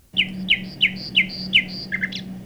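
Bird call played back when the bird's picture is clicked in a digital reference: five evenly spaced, bright two-part chirps repeat in a steady rhythm, ending in a quicker cluster of higher notes over a low background hum.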